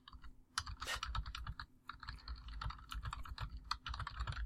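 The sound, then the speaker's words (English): Typing on a computer keyboard gives a steady, fairly quiet stream of many rapid key clicks with no pauses. “I'll type it up.”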